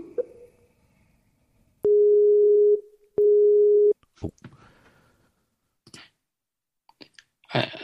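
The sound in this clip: A telephone ringback tone while a call is placed through an online call setup: two long, steady, mid-pitched tone pulses separated by a short gap, followed by a few faint scattered clicks and brief noises.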